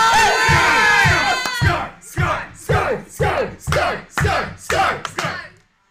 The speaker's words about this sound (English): I was about to say, we were the only ones that cheered. We were chanting Scar, guys.